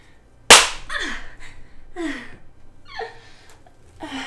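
A single loud, crisp hand slap on buttocks cracks out, followed by several breathy gasps and exhalations.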